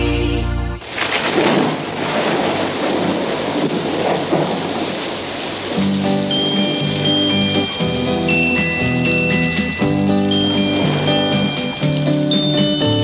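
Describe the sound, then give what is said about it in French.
Rain streaming and tapping on window panes, with rumbling thunder: a loud, steady downpour throughout. Partway through, soft music with sustained notes comes in and plays over the rain. “J'écoute en soupirant la pluie qui ruisselle, frappant doucement sur mes carreaux”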